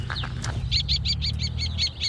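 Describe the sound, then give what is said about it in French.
Common kestrel calling while hunting over a fallow field: a rapid run of sharp, high, evenly spaced notes that follows a few fainter sounds, heard over a steady low rumble. “Ah, c'est un faucon cresserelle, il va droit. Bah, il chasse au-dessus de la jachère, en fait.”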